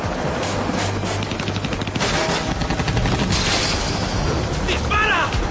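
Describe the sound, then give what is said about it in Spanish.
Rapid automatic gunfire in a dramatized chase as a hitman shoots at a jeep swerving off a trail, with loud, dense bursts of shots rattling almost without pause, ending in a harsher flurry. “El chip se sale del sendero esquivando las balas del sicario, pero el otro helicóptero los acosa por el otro lado.”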